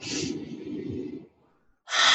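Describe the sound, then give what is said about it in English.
A deep breath drawn in: a steady, breathy rush of air lasting just over a second, then a brief pause before another airy burst starts at the end. No voices are heard. “Hold that and just take a deep breath in.”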